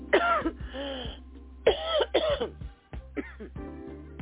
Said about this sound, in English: All right, if I can stop coughing long enough.